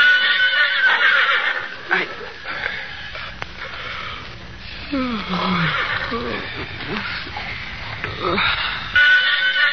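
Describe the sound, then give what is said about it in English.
A pony whinnies in fear: loud, shaky neighing with falling, wavering pitch over a busy, noisy background, set in a sleeping camp at night. “William Barclay Masterson sensed, rather than heard, his pony's whinny of fear”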